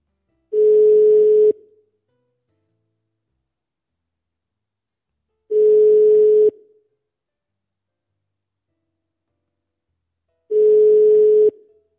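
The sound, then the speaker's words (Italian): Ringback tone of an outgoing telephone call after dialling a number: three steady, single-pitched tones of about one second each, separated by long, even silences. “Vediamo un attimo, faccio il numero, che poi devo stare anche attento a non rivelare il numero della regina. Squilla, forse l'ha ricaricata.”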